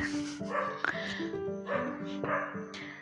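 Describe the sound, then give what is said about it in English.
Several dogs bark and yip in a continuous, overlapping run of loud, tonal barks with whining edges and a few sharp accents. “I hope they won't start barking again.”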